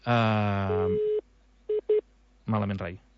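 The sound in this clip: Telephone line tones after a call is accidentally hung up: a brief steady tone, then two short, evenly pitched beeps in quick succession, set between stretches of voice.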